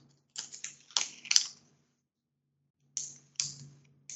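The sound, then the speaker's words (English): Crayons scribbling on a stack of paper: scratchy, papery strokes in two short flurries separated by a pause of quiet. Each flurry holds a few quick bursts, fairly faint, with no voices. “She is bent over a stack of paper, and she is scribbling at the. She's scribbling on them with crayons.”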